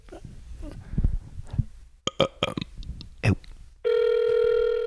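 An outgoing phone call rings, with a steady, loud electronic ringback tone that begins after a series of scattered clicks and knocks.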